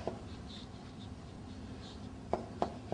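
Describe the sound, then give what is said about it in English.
Handwriting during a lesson, faint soft scratching strokes followed near the end by a few sharp taps of the writing tool, quiet and without any voices. “You want me to write it down? Okay, I'll write it down.”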